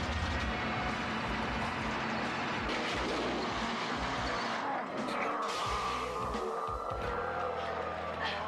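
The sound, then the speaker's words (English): Dump trucks give off a continuous, low, rumbling mechanical noise that stays fairly quiet and steady throughout, with no break or clear single event. “It's the noise of the dump trucks that's really bothering her.”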